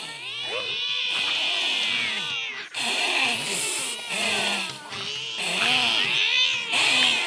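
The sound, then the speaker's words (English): Cats fighting, with loud, harsh yowls and screeches that rise and fall in pitch, overlapping in several bursts separated by brief pauses. “That's a cat fight.”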